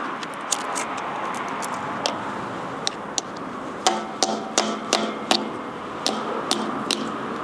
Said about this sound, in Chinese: 电池模型整个外观来看的话是没有任何字样的。现在我们打开一个看一下，